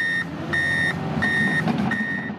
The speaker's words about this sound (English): If you drive east in Estero, you can't miss the roadwork happening on Corkscrew Road.